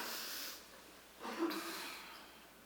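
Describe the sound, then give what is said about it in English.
People taking a deep breath together during a church sermon: a single soft, airy inhalation swells briefly near the middle over faint background hiss, quiet and without talking. “Let's do it again. Take a breath.”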